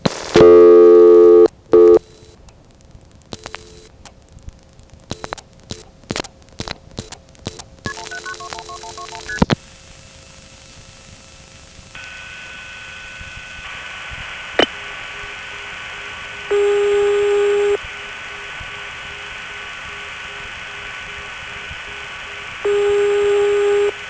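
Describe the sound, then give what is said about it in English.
Touch-tone telephone dialing of 179 followed by 212-121 on a long-distance call, a quick run of many short tone bursts, then a steady line tone broken by a few longer, louder beeps. “Let's try dialing 179. And then very quickly squeeze in 212-121 and see if it ends up going to New York by Trinidad.”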